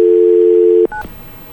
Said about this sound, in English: I got it in a speed dial, so I can call it up real quick.